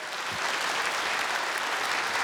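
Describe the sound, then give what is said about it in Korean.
A concert audience gives warm applause to the Daejeon Municipal Yeonjeong Gugak Orchestra, a traditional Korean music ensemble. Many hands clap in a dense, continuous roar that holds steady and strong from start to finish. “대전시립 연정국악단과 함께 청춘을 제대로 즐기셨다면 다시 한번 뜨거운 박수로 화답해 주실까요?”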